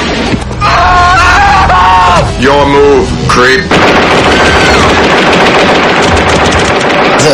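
Heavy gunfire from a science fiction film scene of robots shooting people: a loud, dense, continuous barrage of rapid bursts, preceded by shifting tonal sounds over the opening seconds.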